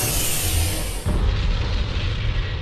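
A destroyed alien spaceship explodes in a dense, roaring blast of noise, with a sharp burst partway through followed by a continuing heavy rumble.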